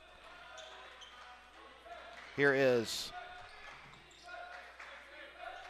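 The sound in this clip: A basketball dribbled on a court during a game, with soft repeated bounces under a commentator's steady talk and crowd noise, and a brief loud squeal partway through.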